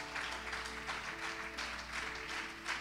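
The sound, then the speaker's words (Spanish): Applause from a church audience during a worship service, a fairly quiet, continuous patter of clapping over steady sustained musical tones, with no voices. “Dele ese aplauso al Señor más fuerte con todo el corazón.”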